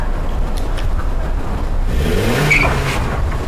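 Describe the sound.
A car engine revs as its driver threatens to drive at someone, a loud steady roar that swells in the second half with a rising, whining engine tone.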